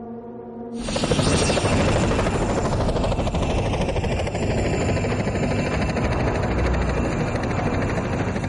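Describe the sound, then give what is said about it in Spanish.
A helicopter flies over a forested landscape near the wreckage of a balloon. A quiet hum gives way within the first second to a loud, steady rotor and engine roar that holds evenly to the end. “Un helicóptero sobrevuela la zona donde se encuentran los restos del globo.”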